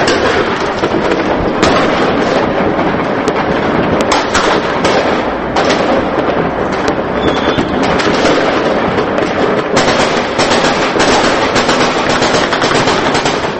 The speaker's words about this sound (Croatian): građani su ponoć dočekali sa vatrometima i petardama.